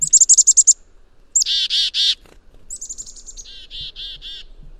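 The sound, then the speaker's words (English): Black-capped chickadee calling twice. Each call is a run of quick, high, clear notes followed by several harsher, buzzy, lower 'dee' notes, bright and distinct over a quiet background. “the black-capped chickadee call, that very charismatic chickadee-dee-dee”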